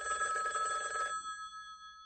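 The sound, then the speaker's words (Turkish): A telephone bell rings in a single continuous trilling burst lasting about a second, then its tone quickly fades away, with no voices. “Telefona bak Edward. Ya da dur ben bakarım.”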